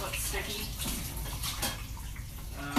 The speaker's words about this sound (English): Wash our hands again